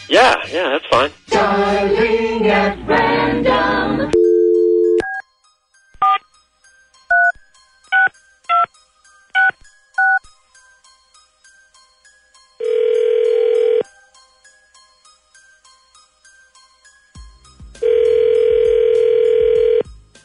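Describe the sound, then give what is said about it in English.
Telephone dialing at random: steady dial tones and a quick run of short, separate keypad beeps, then longer sustained tones. A voice is heard briefly at the start. “Dialing at random.”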